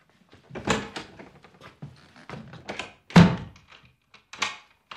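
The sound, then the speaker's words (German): Heavy banging on a door: a few irregular, loud, dull thumps, one standing out sharper and stronger than the rest, with quieter knocks in between. “Herr Steiger! Machen Sie die Tür auf! Verdammt!”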